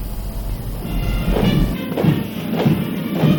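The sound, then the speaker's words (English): Soldiers march at the Iranian National Army Day parade in Tehran, heavy boot stamps landing in a steady rhythm of a few beats over a low, rumbling background. “Heavy stumps of marching soldiers and convoys of Iranian-made weapons hit the parade ground in Tehran and across the country on National Army Day.”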